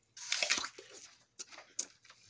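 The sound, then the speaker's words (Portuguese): Crunchy bites and chewing of a fresh apple, starting with a longer burst of crisp crunching, then a few shorter crunches and wet squishes after a brief pause, fairly faint. “comendo uma maçã nesse exato momento, tá bom?”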